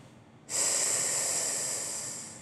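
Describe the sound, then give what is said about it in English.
A sustained hissing "s" exhaled on one long breath as a voice exercise. It begins abruptly and stays steady and fairly loud until the end, with no speech. “Take another deep breath, and on that exhale, pronounce the letter S.”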